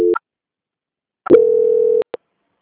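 Telephone transfer tone as a bank call is passed to the quality department: a short beep, a pause, a longer steady mid-pitched tone, then one brief final blip.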